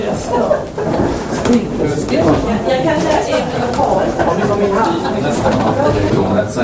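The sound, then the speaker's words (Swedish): A hatch being opened, a scraping, sliding sound amid continuous conversation in Swedish. “Jag kan öppna luckan.”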